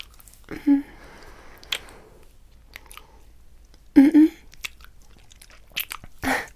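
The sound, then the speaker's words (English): Kissing sounds: a few quiet, wet lip smacks and squishy mouth noises come in scattered clusters over a faint background. “Don't stop kissing me. I want your lips on mine”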